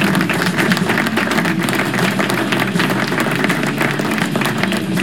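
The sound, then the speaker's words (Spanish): Audience applause: dense, loud clapping that holds an even level from start to end. “Así que un aplauso”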